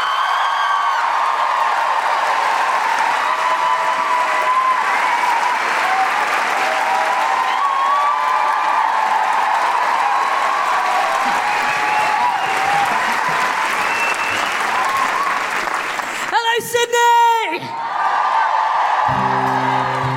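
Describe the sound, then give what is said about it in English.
Sustained applause from a Sydney audience welcoming a folk singer at a live feminist comedy show: dense clapping for about sixteen seconds, threaded with high, wavering woohooing voices, before it briefly breaks up near the end. “put your hands together and make incredible, welcoming Sydney woohooing guilty feminist noises for the incredible Grace Petrie.”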